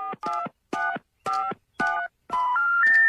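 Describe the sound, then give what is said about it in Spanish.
Telephone keypad buttons pressed to dial, giving a few short two-tone beeps in a steady rhythm, then a longer run of tones that steps upward in pitch, with no voices. “Los dedos que uso para marcar son demasiado gruesos. Para obtener una barra especial, oprima todos los botones con la palma.”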